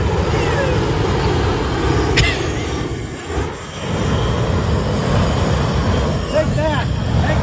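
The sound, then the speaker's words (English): A homemade flamethrower torch fired along a gravel driveway roars as a loud, continuous, broad whoosh that dips briefly about halfway through before surging back, with voices under it. “gave him a flamethrower for Christmas. Whoa. Okay. And he's demonstrating it in this clip. Redneck fighting torch. Merry Christmas. Listen to this thing.”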